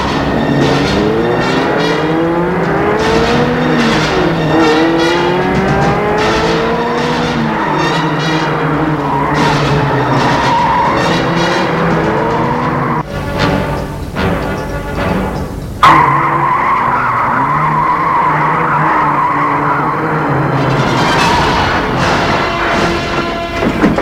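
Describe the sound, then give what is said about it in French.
A car driving at high speed and skidding, with loud, continuous engine roar and squealing tire tones that slide up and down in pitch. The texture changes briefly near the middle, then the steady roar returns. “dans une voiture, qui roule, roule, à vive allure. C'est terrible, et elle roule.”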